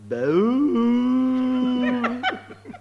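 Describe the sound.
A cow gives a single long, low moo that rises at the start and then holds a steady, drawn-out tone before breaking off into a few short rough bursts. It stands alone, with no other animals or voices.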